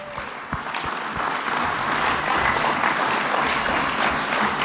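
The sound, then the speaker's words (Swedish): Applause from an audience at a Norwegian community gathering, steady dense clapping from many people that holds at an even level throughout. “Skal vi se dem en klappar til at?”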